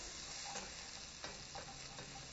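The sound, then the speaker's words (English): Onion, cut-up chicken thigh and garlic are stirred in a sizzling pan. A faint, steady frying hiss runs throughout, broken by a few soft scraping strokes of the stirring. “And now I've just got the onion and the cut up chicken thigh in there, and I'm tossing in the garlic, giving that a good good stir.”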